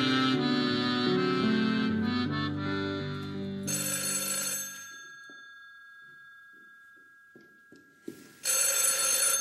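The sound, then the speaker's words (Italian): A telephone bell rings in two loud, bright metallic bursts separated by a long quiet gap with faint knocks. Sustained tonal sounds precede the first ring. “Pronto? È tutto pomeriggio che squilla il telefono.”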